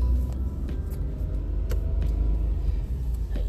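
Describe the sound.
A car is driving, heard from inside the vehicle as its driver travels: a steady, low engine and road rumble with faint ticks and rattles. Nobody speaks over it.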